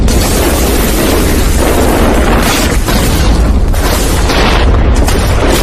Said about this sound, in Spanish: Se oye un trueno ensordecedor y los rayos iluminan el cielo cuando más de 1.000 armas, cañones de infantería, morteros, tanques y cazacarros abren fuego.